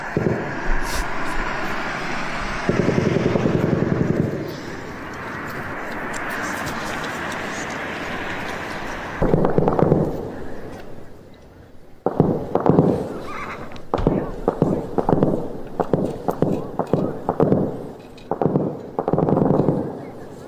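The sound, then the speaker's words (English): Explosions from Turkish airstrikes bombing Kurdish positions: a continuous heavy roar gives way to many sharp, loud blasts and bangs that come in irregular, rapid bursts. “Here's them last night bombing the shit out of the Kurds.”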